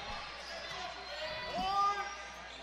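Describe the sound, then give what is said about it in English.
A basketball is dribbled on a court during a game, with faint, steady bounces under continuous play-by-play commentary and a low crowd murmur. “He's just dribbling between the circles right now. That's all he's doing right now.”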